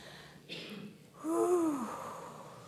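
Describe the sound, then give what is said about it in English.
A group drawing a deep breath together and then letting it go: a soft, breathy inhale, followed by a longer, louder exhale that turns into a voiced sigh, over faint background noise. “I invite you to take a deep collective breath. and release it.”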